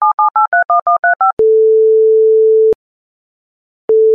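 Telephone keypad beeps and line tone while calling the town hall: nine quick dual-pitched beeps in a brisk run, then a long steady tone, a silent pause, and the tone starting again.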